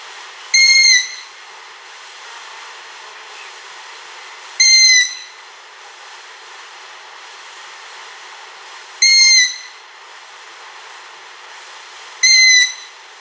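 Owl fledglings make high calls at night while exploring their surroundings between May and August. There are four short, thin, whistled calls with a rasping edge, evenly spaced several seconds apart over a steady, faint background hiss.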